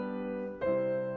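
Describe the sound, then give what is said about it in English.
A five-to-one authentic cadence played as chords: one sustained chord rings, then shifts just past midway to the tonic chord, which enters slightly louder and holds steady to the end. “Here again is a 5-1 cadence”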